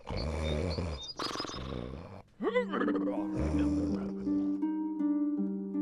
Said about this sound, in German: Nanu, wer schnarcht denn da so? Das wird doch nicht das Großmütterchen sein? Nein, nein, nein, nein, das ist der Wolf, der alte Sünder. Das hört man noch.